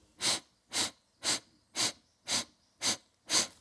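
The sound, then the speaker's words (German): Nasal inhalation broken into short parts as a breathing technique: seven evenly spaced, hissing sniffs in a steady rhythm, each rising and falling in loudness, with no voices. “wenn ich zum Beispiel in acht Teilen einatmen würde, ich mache das mal durch die Nase”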